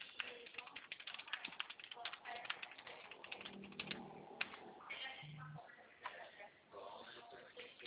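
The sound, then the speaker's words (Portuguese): Typing on a computer keyboard as a value is entered into a proposal, a quiet, irregular run of key clicks with short pauses between bursts. “Peraí, deixa eu colocar aqui o valor para você.”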